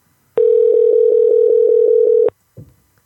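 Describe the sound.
A telephone rings on an outgoing call to someone in Florida: one loud, steady ringback tone with a slight pulsing flutter lasts about two seconds, then cuts off. A brief soft click follows.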